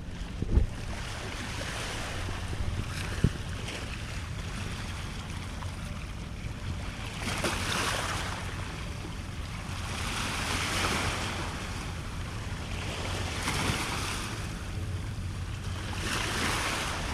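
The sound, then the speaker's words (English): Ocean surf rolls in on a walk by the sea, with slow broad surges of breaking waves every few seconds over a constant hiss and gusty wind buffeting the microphone; no voices. “The most calming sound to me is the sound of the ocean.”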